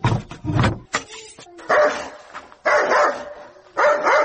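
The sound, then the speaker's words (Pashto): A dog barks repeatedly in many harsh, loud barks, mixed with higher yips and whimpers, in an uneven rhythm with short pauses between the bursts. “ته بیا دا سپی وګوره چې نه مو پرېږدي، چغه شه ورک شه”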